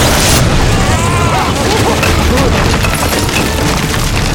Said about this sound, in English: Then there was a blur of green past them, and the ledge exploded in front of them.